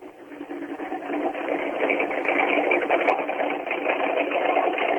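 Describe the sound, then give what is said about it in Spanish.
A Mustang race car engine idles in a steady, rattling drone with a thin, narrow tone, growing a little louder in the first second and then holding even. “Primer motor encendido en este momento a la hora del programa es el del Mustang de Craparo”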